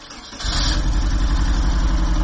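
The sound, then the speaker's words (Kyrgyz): Engine noise from a car driving toward the mountains: a loud, steady, low rumble that jumps up in level early on and then holds constant, with no talking. “Ошентип кызыктуу каармандардын кызыктуу унаасы менен тоо тарапка бет алдык.”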